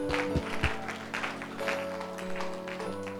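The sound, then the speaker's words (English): Church audience clapping for Jesus, a faint patter of hands with a few low thumps early on and sustained tones beneath. “Clap for Jesus.”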